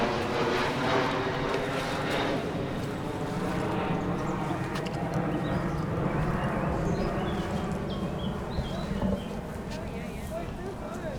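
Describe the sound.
Aircraft rumble near Schiphol airport at an outdoor anti-aviation protest festival, a steady broad roar that holds through the whole stretch under constant crowd chatter and eases slightly near the end.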